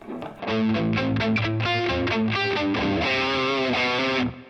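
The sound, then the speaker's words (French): Electric guitar through plain distortion with no phaser, in a pedal-order comparison: a loud, gritty run of quick picked notes and chords that settles into a held, buzzing chord before cutting off abruptly, with no voices. “Je vous montre la différence entre le son saturé normal”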